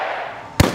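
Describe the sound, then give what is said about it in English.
A single sharp rifle bang from the Mountaineer mascot's rifle at a WVU football game cuts through a steady wash of cheering fans, with the crowd noise continuing after the blast. “That's the sound of WVU fans cheering and the Mountaineer mascot's rifle firing.”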